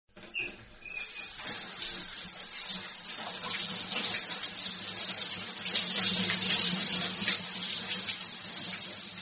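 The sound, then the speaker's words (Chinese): Warm shower water rinses a body in a bathroom, a steady hissing spray with soft splashes and patter. It starts with a few splashes and then runs continuously at a moderate level, with no talk. “替你冲洗身子。 感觉舒服吗？温暖的热水使身心都不断的放松呢。”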